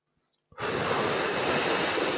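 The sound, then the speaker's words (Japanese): A voice imitates the charge shot of Samus from the Super Smash Bros video game: a few faint clicks, then an abrupt, sustained breathy rushing hiss that holds steady and loud. “いや、これはあのスマブラのサムスがチャージショットを打つ音。”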